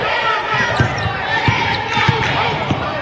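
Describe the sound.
A basketball is dribbled on the court during a women's game, with a few dull, evenly spaced thuds over a steady murmur of crowd noise in the gym.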